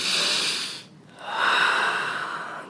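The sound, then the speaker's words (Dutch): Deep breaths drawn during a guided breathing exercise: two long, airy breath sounds with a short pause between them, steady and fairly soft, with no talk. “diep en volledig inademen”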